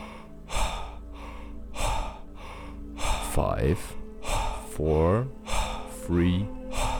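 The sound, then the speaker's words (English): Rapid power breathing exercise at double speed: quick, forceful, rhythmic breaths repeated in a steady pulse over a soft, low background drone, followed by a few longer, voiced exhalations. “Power breathing. Double speed.”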